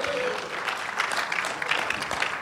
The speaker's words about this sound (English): Jesus deserves for you to clap and give a high shout.